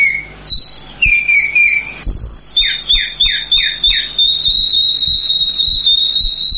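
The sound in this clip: A calandria mockingbird sings alone, varied clear whistled phrases with a run of five quick down-slurred notes midway, then a steady high trilling note held to the end.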